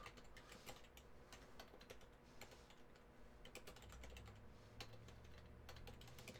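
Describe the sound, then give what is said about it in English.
Typing on a computer keyboard, many quick irregular clicks in uneven bursts, quiet and with no voices. “I realize that this is really bad podcasting because whereas the video people get to watch me type poorly, the podcasters just have to listen to click, click, click, click, click, click.”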